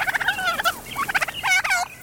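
Domestic turkeys gobble in a farmyard, three rapid, warbling bursts of high, bubbling calls.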